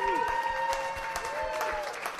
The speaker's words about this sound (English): I want another round of applause for Jeremy Dutcher. That was fun.